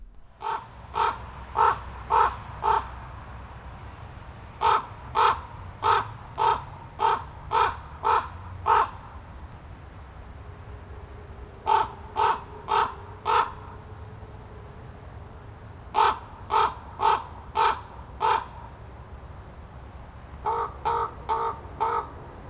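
A raven calls in a city with harsh, clipped croaks fired in five quick bursts separated by short pauses. The calls stand out loudly over a low, steady hum.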